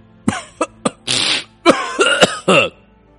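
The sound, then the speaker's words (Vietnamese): Repeated dry coughing: a rapid run of harsh, raspy bursts, some short and clipped, others drawn out and breathy, with no talking. “Giả Chu ho khan liên tục”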